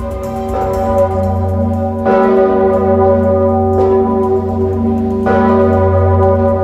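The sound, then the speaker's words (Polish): Large historic cathedral bell tolling at Wawel in Kraków, swung by bell-ringers pulling ropes at noon to mark a pope's death; four deep, loud strikes, each leaving a long, rich humming resonance that carries into the next. “10 minut bił w Krakowie słynny dzwon Zygmunta.”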